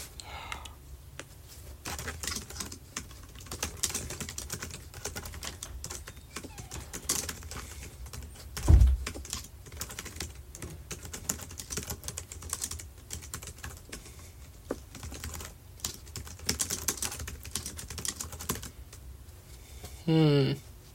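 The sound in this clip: Someone types a list of New Year's goals on a computer keyboard, producing fast, steady, quiet clicking that runs through the whole clip with only brief pauses.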